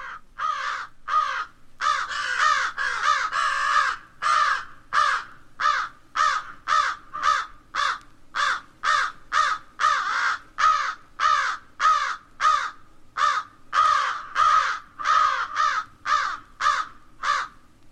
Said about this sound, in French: la corneille d'Amérique,